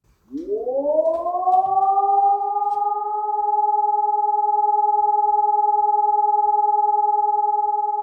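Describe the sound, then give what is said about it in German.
An all-clear siren signalling that an emergency is over: a single tone sweeps quickly upward, then holds a steady, even pitch with strong overtones for several seconds, sounding alone without any voices. “Und das ist quasi der Ton, wenn es wieder Entwarnung gibt.”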